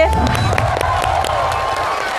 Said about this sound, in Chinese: 着急鼓掌是吧？